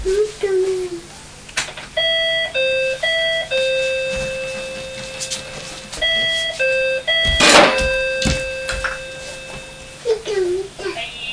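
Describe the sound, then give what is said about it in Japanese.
An electronic doorbell rings out two melodic chime sequences of stepped, sustained tones, loud and clear, with voices talking just before and after. “もうピンポンしようか”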